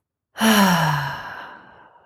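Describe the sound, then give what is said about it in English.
A single long, breathy exhalation out through the mouth during a simple breathing exercise. It begins abruptly and loudly as a voiced sigh with a gently falling pitch, then fades away slowly. “In through the nose and out through the mouth.”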